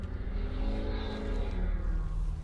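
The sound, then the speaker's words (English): A loud truck drives past on a road. A heavy, sustained engine roar with a rumbling low end stays strong for the whole stretch. “wow, that was a really loud truck that just blew past me. I don't know if you heard it”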